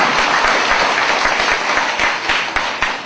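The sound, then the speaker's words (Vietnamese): Loud, dense applause from children at a teacher's request, a sustained wash of many clapping hands that stays strong throughout and eases slightly toward the end. “Cô cho một tràng vỗ tay thật lớn để em tập trung”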